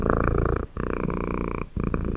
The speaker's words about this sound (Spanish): dejando escapar un extraño ronroneo húmedo y viscoso,